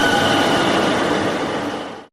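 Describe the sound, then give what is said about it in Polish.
A 1990s express train arrives at a platform. A dense, broad rumble with a faint high squeal near the start holds steady, then tapers off toward the end. “Pociąg pospieszny z lat 90. wjedzie na tor przy peronie Radia Parada.”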